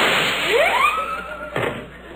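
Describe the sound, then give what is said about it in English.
A gunshot fired to light a cigarette lands as a single sharp bang, preceded by a rising whistling sweep and followed by a fading tail. “Watch me light my cigarette by shooting it.”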